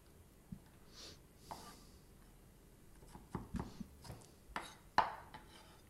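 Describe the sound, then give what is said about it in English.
A knife chops onions for escarole, giving faint, irregular taps on a board with short pauses between them. The taps come in scattered clusters and grow slightly louder toward the end. “I chop this so that it's easier to get into your mouth instead of lots of strings.”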